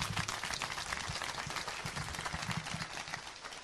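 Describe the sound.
Audience applause at an award gala: dense, steady clapping that continues at an even level for the whole stretch, with no break or pause.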